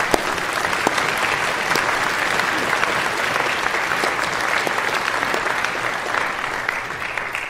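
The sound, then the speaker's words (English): An audience gives a big hand for a couple expecting their second baby girl: steady, loud clapping from many hands, a dense continuous patter that lasts the whole stretch. “Will you stand right there? Give them a big hand.”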